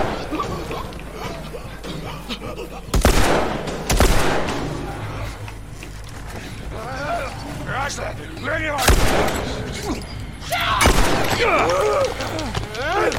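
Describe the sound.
Gunfire in a video game: a few loud, sharp shot bursts break through a steady backdrop of game sound, with voices talking in between.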